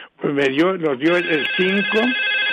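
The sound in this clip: A telephone rings with a steady, high electronic tone that rises out of a woman's lively talking and holds loud beneath her voice to the end.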